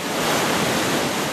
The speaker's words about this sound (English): This is the sound of about 1.8 million gallons of water pumping uphill every minute.